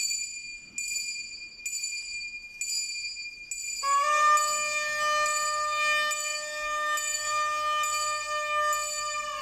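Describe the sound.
A small hand bell is rung in a tiny village procession of three penitents in Ávila, Spain, in the early morning. A few evenly spaced bright strikes give way to denser, sustained metallic ringing, with no voices.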